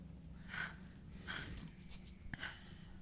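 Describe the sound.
Heavy, anxious breathing from an actress in a dark found-footage horror film scene: three drawn breaths about a second apart, faint overall, with a soft click near the end.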